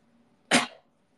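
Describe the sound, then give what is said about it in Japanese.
A single short cough bursts out, sharp and breathy, lasting about a quarter of a second against near silence. “咳だな。”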